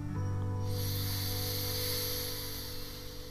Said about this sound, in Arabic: احبسوا النفس زفير يلا آخر مرة شهيق